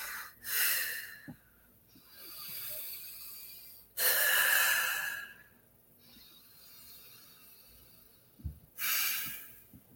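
Slow, deep breaths taken with eyes closed during a relaxation exercise: a few loud, airy breath bursts separated by quieter, longer stretches of softer breathing, with no talking.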